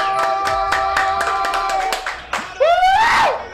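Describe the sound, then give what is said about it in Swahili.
Rhythmic clapping for a football club, a few people striking hands in a steady beat over a held tonal sound, with a voice rising and falling near the end. “Kwa heshima tungesimama tupige makofi kwa ajili ya Arsenal.”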